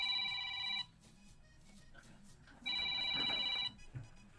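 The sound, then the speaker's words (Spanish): A telephone rings in two electronic trilling bursts, each under a second long, separated by a pause of about two seconds. “Vamos, están llamando. ¿Aló?”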